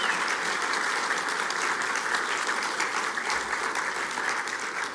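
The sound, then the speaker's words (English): A church audience applauds its volunteers with steady, dense clapping that stays loud and even throughout, with no talk over it. “Could we just all show appreciation one more time to all the volunteers who serve in our church family?”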